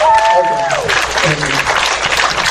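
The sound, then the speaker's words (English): An audience applauds a convention's board of directors and staff. A brief voice trails off at the start, then steady, dense clapping carries on to the end. “And again, let's hear it for our awesome board of directors and all of our con staff.”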